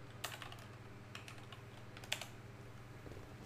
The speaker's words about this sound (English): let me type this in